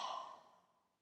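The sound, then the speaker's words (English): A deep open-mouth exhale during a breathing meditation: a single soft, breathy rush of air that starts fullest and fades away over about a second. “Open with exhale. Two more times. Inhale, fill. Open mouth.”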